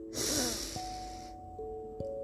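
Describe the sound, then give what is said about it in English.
A deep breath drawn in makes a soft, airy hiss that lasts about a second. Faint, steady sustained tones continue underneath and after it. “Now take a big breath in”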